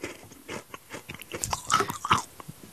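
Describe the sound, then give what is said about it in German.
Crunching and chewing of rock candy sugar: many crisp, irregular crunches in quick succession, fairly loud, with no talking. “Was mampfst du da eigentlich nebenbei? Zucker. Hört man das?”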